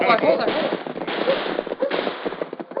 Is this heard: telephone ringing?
no

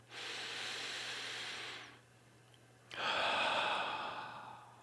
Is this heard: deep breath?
yes

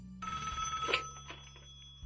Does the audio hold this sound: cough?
no

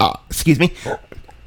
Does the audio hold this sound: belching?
yes

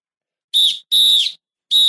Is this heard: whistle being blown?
yes

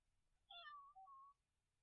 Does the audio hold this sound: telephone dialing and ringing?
no

